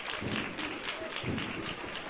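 Crowd applause at a Holy Week procession as a religious brotherhood's image sets out. Many hands clap in a steady, dense clatter, with slight swells in loudness.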